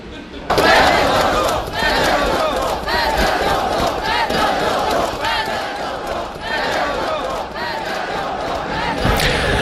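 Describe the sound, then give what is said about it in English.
Crowd of protesters in Ukraine demonstrating against the president over his sudden dismissal of the defence minister, a loud, dense mass of shouting voices with rhythmic chant-like bursts running continuously. “Sounds there of protesters campaigning against the president there in protest at his decision to fire his defence minister.”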